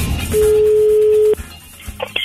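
A single long telephone ringing tone sounds while a call is placed: one steady, pure, mid-pitched beep of about a second, loud against low background noise, followed by quieter clicks and brief higher tones.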